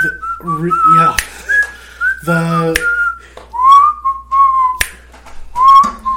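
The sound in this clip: Whistling in a song: a bright, melodic whistled tune with sliding, wavering notes over music, punctuated by sharp percussive clicks.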